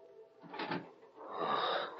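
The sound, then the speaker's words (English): A wooden room door creaks slowly open as an effect in an old western radio drama. The creak is drawn out and raspy, swelling in two stretches, a short one followed by a longer, steadier groan. “And the door of the room creaked slowly.”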